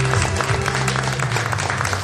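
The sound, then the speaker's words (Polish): Warm audience applause welcoming a singer onto the stage: dense, steady clapping throughout with no breaks, and a low tonal hum underneath. “Brawa gorące, zapraszamy cię tu.”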